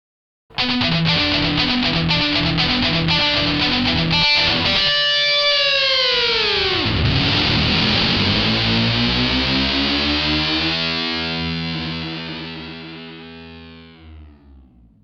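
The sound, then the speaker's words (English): Electric guitar through a DD3 digital delay pedal, heavily distorted: quick repeated notes, then a swooping pitch sweep down and back up, ending in long sustained notes whose repeats slowly fade away. “DD3 Digital Delay.”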